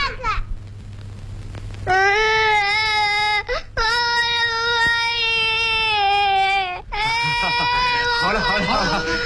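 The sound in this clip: A child crying in long, high, wailing sobs, about three sustained cries in a row, loud and strained, with a quieter gap before the first and a few shorter whimpers at the end.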